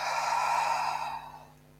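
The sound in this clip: A single slow exhale during a guided breathing exercise, a soft, airy out-breath that holds steady at first and then gradually fades away.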